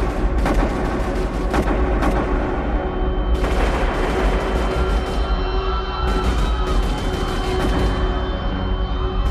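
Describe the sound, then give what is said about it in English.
Gunshots from gunmen in the courtyard of the mosque in Mecca after the dawn prayer: many loud, dense cracks and bursts fired in rapid succession, some overlapping, with no talk. “Just as the prayer ended, shots rang out.”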